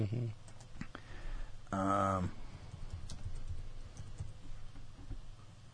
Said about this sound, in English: I'm trying to think what to exactly type in here.